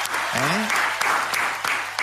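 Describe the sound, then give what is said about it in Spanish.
Applause from just three people in the stands that sounds like a much larger crowd, brisk continuous clapping with a voice speaking over it. “Y son tres en la tribuna, pero aplauden como 40. Aplauden como buena tribuna.”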